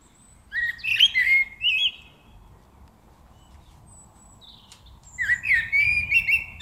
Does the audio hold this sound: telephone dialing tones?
no